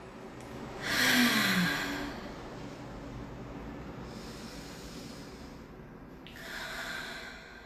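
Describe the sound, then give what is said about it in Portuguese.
Deep breaths drawn in and let out during a guided morning breathing exercise with arms stretched forward: long, airy swells of breath with softer steady breathing between them, and no talk. “respira comigo, bem profundo por um momento. Vamos lá, todo mundo junto, inspira”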